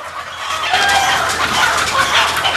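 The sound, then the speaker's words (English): Chickens cluck in a wire cage in a large, dark room while a man pulls the flapping white birds out. The dense, busy clamour runs loudly and steadily through the whole clip. “In a large, dark room, a man pulls flapping white chickens from a wire cage.”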